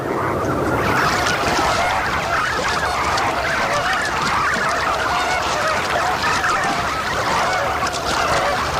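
Greater flamingos calling in a breeding colony with young birds: a dense, loud chorus of overlapping goose-like honks that runs without a break for the whole clip.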